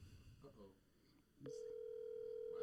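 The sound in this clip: Ringback tone of an outgoing phone call going unanswered: a brief murmur of voices gives way to one steady, unbroken electronic tone that holds evenly to the end.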